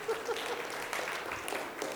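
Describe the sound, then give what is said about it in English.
Audience hand clapping for participants, a scattered patter of many hands at a modest level with a few sharper claps standing out. “All right, can we give them a hand clap?”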